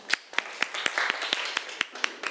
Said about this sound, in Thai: เก่งมากปรบมือให้เพื่อนหน่อยค่ะ